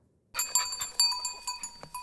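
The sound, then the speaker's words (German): A herd of goats grazing as a fire-prevention crew in the forests of Provence, southern France, heard as many bright, ringing metallic clinks in an irregular series after a short silence, with no talk. “Das ist keine normale Ziegenherde. Es ist quasi eine Einsatztruppe der Feuerwehr.”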